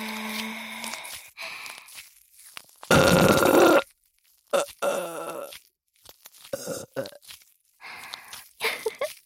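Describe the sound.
A loud, rough burp, forced out during a close face squeeze, bursts out for about a second between softer breathy vocal sounds and quiet mouth noises.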